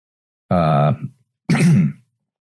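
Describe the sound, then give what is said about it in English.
A person clears their throat in two short, gravelly bursts about half a second apart, each voiced and rough, with quiet between and no other sound. “So like that, I just cleared my throat. I'm going to leave that in there.”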